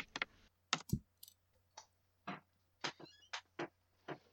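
Faint typing on a computer keyboard: sparse, irregular single key clicks separated by short pauses, with no voices.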